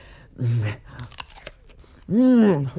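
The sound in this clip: Biting into a crisp apple, with sharp crunches and chewing set between voiced vocal sounds at the start and end.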